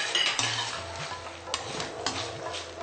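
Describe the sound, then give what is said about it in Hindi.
Spoon stirring and scraping through a pan of spiced stuffed okra tossed with leftover masala, a soft continuous clatter broken by a few sharper clinks of utensil against metal. “अब ये जो थोड़ा बचा हुआ मसाला है वो हम इसके ऊपर स्प्रिंकल कर देंगे। और इसे मिक्स करिए।”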